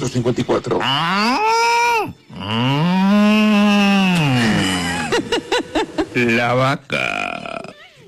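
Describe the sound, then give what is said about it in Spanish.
A voice imitates a cow mooing with two drawn-out, low calls, the second long and wavering. Short voiced bursts and chatter surround the calls. “La vaca.”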